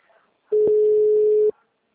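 Ringing tone on an outgoing phone call: a single steady, mid-pitched beep lasting about a second, clear and alone, preceded by faint murmuring.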